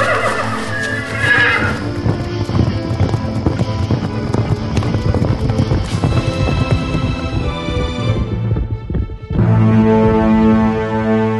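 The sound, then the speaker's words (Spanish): Saddled horses whinny loudly and their hooves clip-clop steadily as they ride off, with repeated neighs over the hoofbeats. “¡Qué bueno que tomamos la providencia de dejar los caballos ensillados! ¡Dense prisa!”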